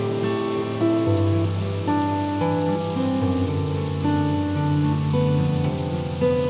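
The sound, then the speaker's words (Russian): Rain as a steady soft hiss beneath sustained, gentle musical notes that change pitch every second or so. “Повсюду протягивал длинные нити дождь, сколько мог видеть глаз.”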